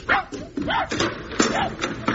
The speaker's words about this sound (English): I've just seen that horrible dog outside.